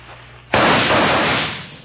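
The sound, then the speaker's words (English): A gunshot in a Western shootout cracks out abruptly after a low hiss, then trails off in a long, noisy decay. “All right. Don't you forget you got a job to do, partner. Now start shooting.”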